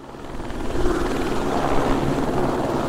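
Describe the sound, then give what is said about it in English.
Helicopter taking off from the airport in Haines, Alaska, carrying heli-ski clients to nearby slopes: a loud, steady rotor drone with a deep throb that holds level throughout. “That's a helicopter for Southeast Alaska Backcountry Adventures on Thursday morning, taking off from the airport with clients to ski nearby slopes.”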